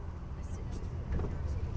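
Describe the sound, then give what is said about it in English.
A bus engine idles outside an art magazine's headquarters, giving a steady low rumble with faint, scattered higher rattles over it that continue throughout. “Ah yes, that's the sound of the Frieze bus idling outside the art magazine's Arnold Circus HQ.”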